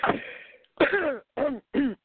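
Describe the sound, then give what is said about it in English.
Throat clearing comes as four short bursts: a rough, noisy one followed by three shorter voiced grunts, each separated by a brief pause. “as I take a sip of water and clear my throat”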